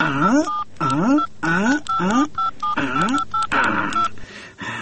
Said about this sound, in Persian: باش که به یک زنگ بزنم کی کجاست.